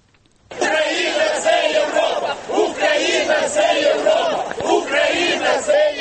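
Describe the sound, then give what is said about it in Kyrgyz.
Deputies in the Ukrainian parliament, some risen from their seats, shouting at the prime minister: after half a second of quiet, a loud, dense clamour of many raised voices breaks out and continues without pause. “Анын сөзүн бузуп залда отурган депутаттардын бир даары ордуларынан тура калып кыйкырык сүрөөн салып премьер министрге ооз эке чабуул коюшту.”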